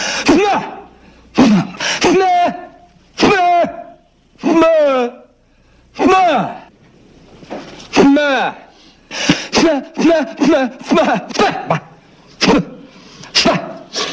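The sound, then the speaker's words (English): A man makes strained throat noises, grunting and gurgling as he builds pressure in his head to clear his ears. Many short, loud voiced bursts with wavering pitch are separated by brief pauses. “I'm trying to clear up my ears. You create a pressure inside your head. It opens up the eustachian tube.”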